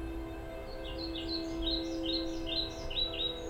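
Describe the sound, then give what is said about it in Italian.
Birds chirp in trees, with many quick high-pitched tweets in short clusters over a steady low drone. “Il cinguettio degli uccelli che volano da un ramo all'altro, il fruscio di un vento dolce e tiepido tra le foglie”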